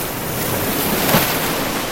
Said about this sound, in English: This is the roar of the waves of the Atlantic Ocean.